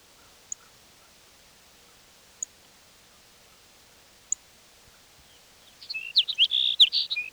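Sparrow song, a short, lively burst of rapid high-pitched twittering notes near the end, after a long quiet stretch broken only by three faint isolated clicks.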